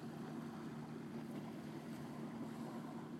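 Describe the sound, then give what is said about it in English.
A motorboat engine in the distance hums as a steady low drone, mixed with wind buffeting the microphone and the wash of water. “it's just so serene here. I guess except for the motorboat in the distance.”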